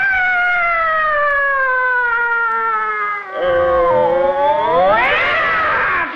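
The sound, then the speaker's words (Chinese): Loud, drawn-out cat-fight yowl, one continuous wail whose pitch sinks slowly, breaks off briefly, then swells and climbs again near the end. “干嘛？猫打架呀？”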